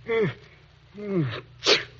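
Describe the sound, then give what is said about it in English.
A man sneezes, with two drawn-out voiced intakes that fall in pitch, then a sharp, breathy burst. It sounds fairly loud and alone, with no talk over it. “you sneezed. And there are no pine trees around here.”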